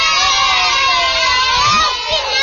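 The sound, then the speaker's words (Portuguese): Internacional (Inter) football fans in an audience shout and cheer together in a dense, sustained roar of many voices, with high, childlike shouts prominent, dipping briefly just before the end. “Tu é colorado? Quem é do Inter dá um gritinho aí.”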